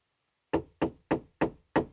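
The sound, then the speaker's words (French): Five evenly spaced, sharp knocks on a door at the far end of a cave, each a firm, loud rap standing alone against silence. “Tout au bout de la grotte, le mouton trouve une porte. Il frappe.”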